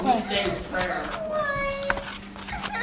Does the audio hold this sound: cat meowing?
yes